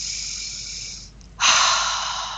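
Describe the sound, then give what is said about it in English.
One deep breath drawn in through the nose, then a louder, breathy exhale through the mouth, as part of a guided dragon-breathing exercise. The soft airy inhale is followed after a short pause by a stronger, hissing outbreath, with no talk. “we're going to deep breath in through the nose and out through the mouth. It's called dragon breathing, and I want you to do that 3 times. So in through your nose,”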